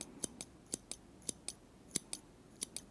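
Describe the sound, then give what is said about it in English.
Scissors cut hair slowly in an ASMR session: ten crisp, bright snips fall in five evenly spaced pairs, quiet and alone, with no voice over them. “So, I need you to start cutting my hair very, very, very slowly.”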